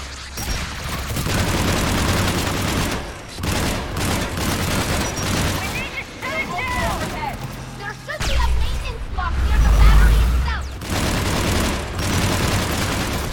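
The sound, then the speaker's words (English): Deep booming shockwaves from a big gun in a space-battle video game: repeated heavy blasts and rumbling bursts, with a loud surge near the end, under excited talk. “Shockwaves! That's a big gun! We should be okay! More incoming!”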